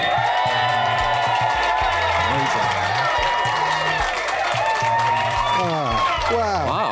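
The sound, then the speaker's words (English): Live studio audience in Dublin cheering and applauding, with loud, continuous clapping mixed with whoops and shouting voices that stays level for the whole stretch. “we're live on tape from Dublin in front of an audience.”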